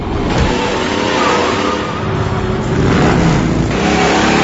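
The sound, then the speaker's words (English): A car engine revs and drives past in a continuous, loud roar that holds steady for a few seconds with no voices. “It's driving sounds. It's our transitional sound to the next.”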